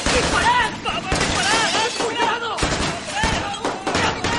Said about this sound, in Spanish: Una ventana se agrieta.